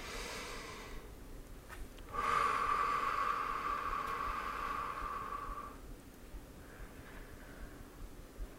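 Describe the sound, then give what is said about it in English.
Deep, slow breathing during a guided meditation: a soft breath, a brief pause, then one long, steady exhale lasting several seconds. It stays faint and airy throughout, with no talk. “Nice, deep, slow breaths with me, please.”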